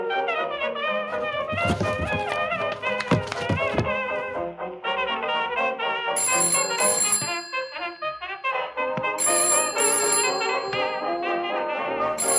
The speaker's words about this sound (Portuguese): Já vai. Já vou te atender. Ah. Quem diabos liga essa hora?